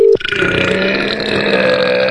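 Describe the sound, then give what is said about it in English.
A loud, drawn-out burp from a person: after a short sharp onset, it holds a buzzy, tonal croak for about two seconds with no other sound around it. “Quality burp.”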